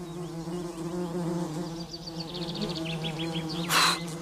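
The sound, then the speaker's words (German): Wasps buzz around leftover fig bread on a garden table in a continuous, droning hum that holds steady throughout, with faint high chirps above it and a short noisy burst near the end. “Die Wespen stürzen sich auf die Reste des Feigenbrots.”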